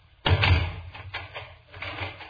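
Door shut with a sudden low thud, followed by a few softer clicks and rattles as it is locked.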